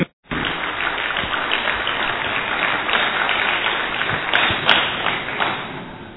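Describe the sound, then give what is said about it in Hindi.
An audience applauds to welcome a speaker to the stage. After a brief silence, dense, steady clapping rises and holds at an even level for about six seconds. “करतल ध्वनि से उनका स्वागत करें”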